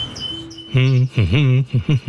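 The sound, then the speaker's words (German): Caged bird singing in an aviary: several loud, rich, harmonic calls in quick succession, one swooping down and back up in pitch, preceded by faint high chirps. “Und man hat den Eindruck, dass auch der Vogel das Herz aufgegangen ist. Statt bewegungslos in der Voliere zu sitzen, wird jetzt geschafft, geflogen und gesungen.”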